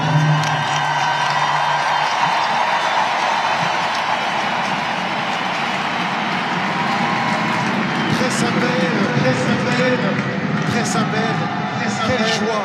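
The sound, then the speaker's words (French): Crowd atmosphere fills the Stade de France football stadium, a dense, unbroken roar of many voices with cheering, while someone talks over it. “Écoutez l'ambiance ici dans le Stade de France. C'est un stade de foot transformé en cathédrale.”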